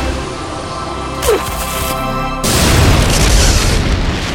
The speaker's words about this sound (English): The grenade's detonation filled the lab behind the women with fire, shrapnel, and smoke.